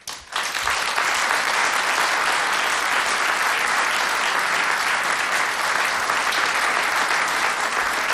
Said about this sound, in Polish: Te brawa są dla Państwa.